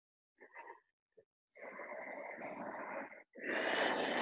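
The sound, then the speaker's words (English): A deep, airy breath drawn in during a yoga class lasts about a second and a half after a couple of brief faint vocal sounds, followed by another strong breath at the end. “fan your fingers. Huge breath in.”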